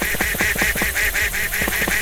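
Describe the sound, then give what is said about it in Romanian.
A duck calling in a rapid, evenly spaced run of nasal, honking quacks, fairly loud and bright, repeating without a break for the whole stretch with no voices. “Vino. Vino, rață.”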